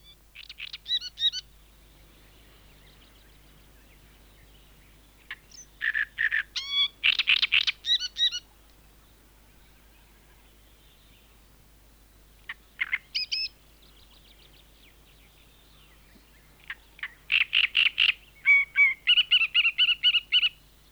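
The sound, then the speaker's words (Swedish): A great reed warbler sings harsh, grating, chattering phrases in four separate bursts with quiet pauses between them, the later bouts longer and more rapid, over a faint low steady hum. “nu följer trastsångare.”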